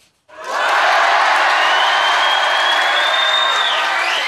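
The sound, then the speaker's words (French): High school students cheer in a school entrance hall, welcoming a visitor like a star: loud, sustained crowd shouting and whooping that erupts suddenly after a brief silence and holds steady throughout. “Théo Curin accueilli comme une star. Les élèves du lycée Stanislas donnent de la voix dans le hall d'entrée”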